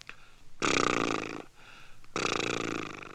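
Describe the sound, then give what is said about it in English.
A person blows their lips so they flap in a lip trill, making two long, loud buzzing flutters separated by a short pause. “set your teeth and close your mouth, take a deep breath, then blow your lips to make them flap.”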